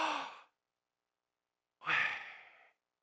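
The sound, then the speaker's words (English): Two audible breaths, separated by silence, imitating the divine name Yahweh as a sound. The first is short and the second is longer and fuller, with each fading out softly. “The very Spirit of God, that they understood that every time they breathed in and every time they breathed out, that they proclaim the name of God.”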